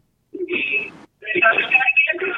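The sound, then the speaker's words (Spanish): A telephone rings with an incoming call, heard as two bright, warbling bursts separated by a short pause, fairly loud. “Tenemos una llamada”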